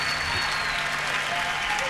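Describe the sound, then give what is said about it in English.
Audience applause at a live jazz-blues album recording: a dense, continuous wash of many hands clapping, loud and steady throughout without a break. “And, yeah, I should have just left the applause going.”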